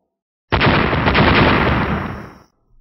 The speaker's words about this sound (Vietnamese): Từng tiếng nổ lớn không ngừng vang lên khủng khiếp.